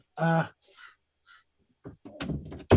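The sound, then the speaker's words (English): A male peacock calls for mates outdoors in a mountain redwood forest, giving one loud, harsh, harmonic cry near the start, followed by fainter sounds and then talking. “we have a whole bunch of peacocks. One male peacock just wandered up out of the woods. We live up in the mountains in the Redwood Forest. And he started crying for mates.”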